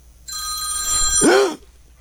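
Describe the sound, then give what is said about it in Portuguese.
A phone rings from an accidentally placed call, one bright, steady electronic ring of just over a second that cuts off sharply, with no talking. “A mulher ligou, ligação perdida, sem querer.”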